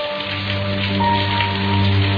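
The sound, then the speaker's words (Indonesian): Heavy rain falls at night over the city of Bandung, a dense, steady hiss that stays loud throughout, with a low, constant hum underneath. “hujan besar mengguyur kota Bandung malam itu.”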